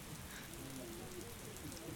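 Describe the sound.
Rain falls outside beyond an overhang as a soft, steady, even hiss of drops, faint and unbroken throughout, with no voices.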